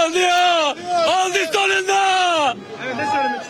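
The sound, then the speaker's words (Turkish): Football fans chant loudly in unison, celebrating their team's promotion to the Süper Lig in Diyarbakır while waving flags and dancing the halay. Sustained, pitch-bending shouted phrases come in a few bursts, then fade softer toward the end. “Davul ve zurna eşliğinde halay çeken taraftarlar ellerinde takımlarının bayraklarıyla tezahürat yaptı.”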